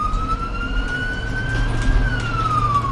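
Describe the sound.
An ambulance siren wails in a single slow sweep, its tone gliding gently upward and then dropping, over a steady low rumble of the moving vehicle.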